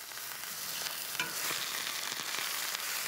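A leg of meat sears in a hot pan, giving a steady, fairly quiet sizzle with scattered small crackles and pops and no voices.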